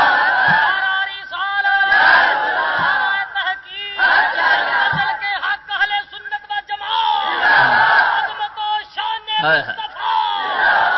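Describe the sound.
A crowd of voices shouts loudly in unison, answering the Nara-e-Takbir call at a Punjabi religious speech, in repeated strong bursts with short gaps between them.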